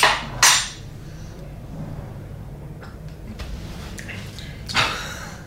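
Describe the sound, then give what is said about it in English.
Spoon clinking against a small espresso cup during a quick stir, a few bright metallic taps near the start and again at the end, with quiet stretches in between. “And I'm going to dive straight into this espresso. Quick stir.”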